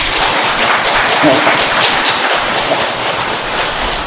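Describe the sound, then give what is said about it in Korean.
Audience applause at a Zen Buddhist dharma lecture: a dense, steady wash of clapping that holds at an even, fairly loud level for about four seconds, with no words spoken. “여러분 그럴 때 박수 좀 쳐주지.”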